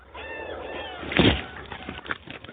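Dinosaur chicks, a surviving brood four weeks old and under a meter high, call for food in a documentary: high, whining harmonic cries, then a louder rough burst midway and a few more sharp cries.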